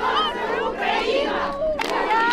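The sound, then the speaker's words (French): A crowd cheers in the central square of Kherson in the days after the city's liberation from Russian occupation. Excited voices overlap in loud, rising shouts and cries of joy, with bursts of louder yelling throughout. “Sur la place centrale, les habitants se serrent dans leurs bras, des voitures passent en klaxonnant, les applaudissements et les cris de joie fusent.”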